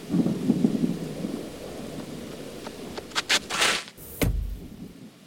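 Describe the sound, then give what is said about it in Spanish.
Heavy rain and wind outdoors in cold, stormy weather make a dense noisy wash, broken near the end by a few louder gusty bursts that buffet the microphone. “Que ya estoy súper calada, mano. En plan, estoy mojada entera. Empezaba a llover, mazo, mazo, mazo.”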